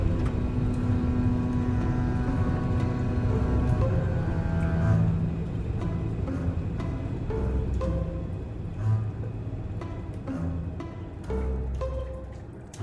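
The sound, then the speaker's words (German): Airplane jet engines drone in flight with a steady, low, rumbling hum and a tonal whine. Later the drone grows a little fainter, and scattered light ticks and taps sound over it. “Ich höre nur das Brummen der Triebwerke, sonst nichts.”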